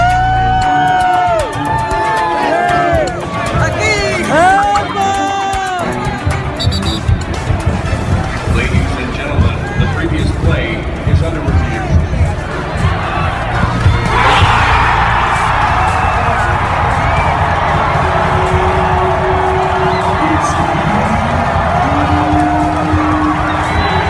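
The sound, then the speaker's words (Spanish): DC United barra brava supporters cheer in the stadium at halftime: a loud, continuous crowd roar with shouting voices and scattered whoops, sustained steadily for the whole stretch. “Nos encontramos en mitad de tiempo en el DC United, Mauricio Colombiano, tiro de esquina podcast. Y nos encontramos con la fanaticada, con la barra brava.”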